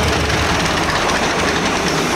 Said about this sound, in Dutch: Wat een ongelofelijke machine is dit. Ik ben echt helemaal onder de indruk. Het is, is zo'n specifieke eh, auto.